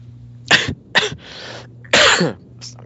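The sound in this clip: Three harsh, abrupt coughs over a low steady hum, the last one longer and louder than the first two.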